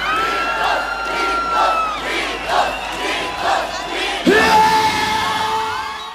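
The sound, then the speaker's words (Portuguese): A crowd of young people shouts and cheers loudly in a continuous wave of yells and whoops, swelling into a louder surge toward the end. “Quero ver a moçada gritando, então gritos, gritos, gritos, gritos, gritos, gritos, gritos.”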